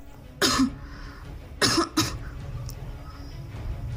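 Coughing to force out something stuck in the throat after drinking tea: three sharp, harsh coughs, one on its own and then two close together, over a low steady background hum.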